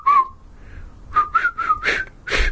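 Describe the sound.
A person whistles a tune, amateurishly, in a few short wavering phrases that grow louder toward the end, with no voices.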